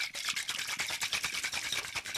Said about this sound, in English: I have to do a dry shake. This scares me. You know why? Because dry shakes want to explode on me.